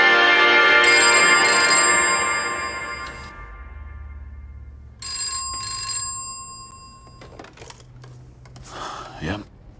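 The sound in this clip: A telephone ringing, with short bursts of bright electronic ring tone standing out against fading tonal sounds and a low background hum, moderately loud at first and quieter afterward.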